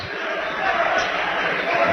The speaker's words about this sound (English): Hands it off to Braden Myers. Comes out on the dribble.